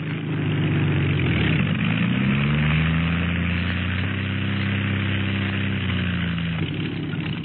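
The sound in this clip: Airplane engine idling after landing, a steady, loud droning hum with strong tonal harmonics that waver and shift slightly in pitch, running continuously from start to finish.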